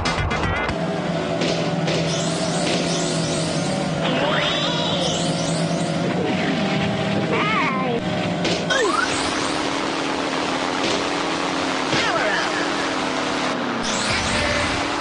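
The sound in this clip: Engine sounds from an N64 racing video game with different vehicles in four-player mode: several loud overlapping buzzing engine drones run continuously, their pitches wavering and shifting together, with a marked change in tone about midway.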